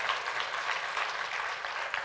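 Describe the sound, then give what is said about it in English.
A church audience clapping hands during a sermon: a steady, soft wash of many hands clapping together, with no single claps standing out over the brief span. “You got to stop clapping your hands. Go on, clap your hands.”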